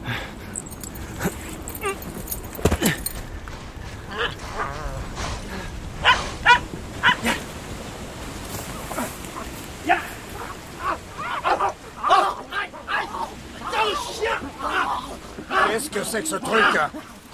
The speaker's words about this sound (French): J'ai fait peur au chien, je suis désolé.